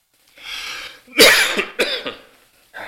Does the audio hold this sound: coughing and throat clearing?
yes